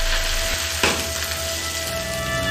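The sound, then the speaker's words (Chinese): Hot oil sizzles over dried and fresh Sichuan peppercorns and chilies in a steady, loud frying hiss, with one brief sharp crackle early on and no talk. “干花椒、鲜花椒、辣椒用油爆香，趁热淋上。”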